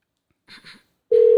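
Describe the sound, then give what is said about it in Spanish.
Telephone tones on an outgoing call: two short, soft noisy bursts, then a loud, steady, low electronic tone that sets in near the end and holds. “Aquí estoy marcando.”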